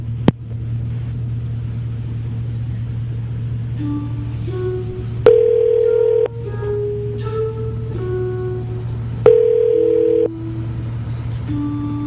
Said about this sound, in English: Please hold while we try that extension for you. You may experience a short silence while we are connecting your call.